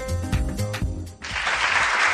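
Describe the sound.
Applause breaks in after a brief tonal passage and fills the second half with dense, steady clapping that holds an even level to the end.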